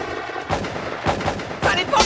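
Gunshot effects in a song's story: three sharp, booming bursts hit in sequence over a dense musical backing.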